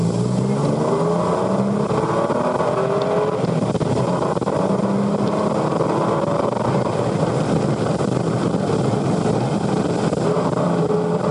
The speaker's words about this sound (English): So this is with Jackie Stewart at the Nürburgring with the Elf Capri. We start off from the starting line.